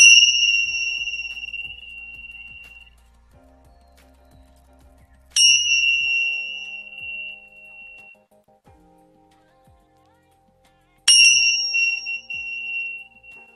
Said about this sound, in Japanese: ちょっとね、チベタンベル鳴らしますね。